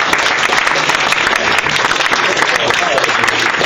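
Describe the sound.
Loud audience applause welcoming the judges at a debating event, many hands clapping in a thick, continuous wash that holds steady throughout.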